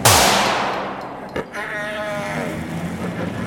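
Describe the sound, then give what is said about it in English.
A single gunshot fired during a tense confrontation: a loud, sharp blast with a long decaying tail, then a brief knock, followed by a sustained wavering voice. “Stay back or I'll shoot again.”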